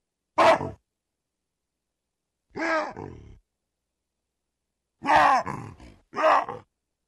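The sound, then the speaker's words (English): Male baboons give loud, two-part wahoo calls, hoarse barking bursts separated by long stretches of silence. A few calls come in sequence, the later ones close together. “let's hear a sequence of three different baboons doing wahoos.”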